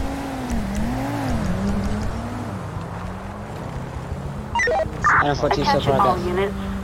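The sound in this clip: Car engine in a police-pursuit video game, a droning motor whose pitch wavers up and down for several seconds before a voice starts talking over it.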